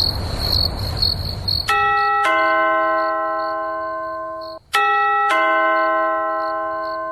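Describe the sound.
A two-note doorbell chime rings twice at a door at night. Each loud ding-dong sustains and fades slowly while crickets chirp steadily in the background.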